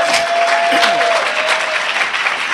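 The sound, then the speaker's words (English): An audience clapping at a speaking event, dense and steady applause that carries on without a break. “now that you done clap”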